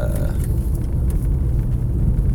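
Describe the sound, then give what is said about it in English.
Steady low rumble of engine and road noise from inside a car being driven, a loud continuous drone with no distinct events. “I am driving.”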